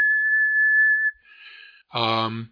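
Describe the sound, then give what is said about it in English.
A steady, single-pitch whistle held into a microphone for about a second, clear and fairly loud, followed by a short pause and brief voiced sounds. “you have a 1 kilohertz tone, like if you're whistling at 1 kilohertz into your microphone,”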